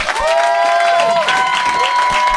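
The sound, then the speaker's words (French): Audience applause at a live show as two performers are introduced, a dense, steady wash of clapping from a crowd, with cheering voices sustained over it throughout. “Puis, mesdames et messieurs, applaudissez-les.”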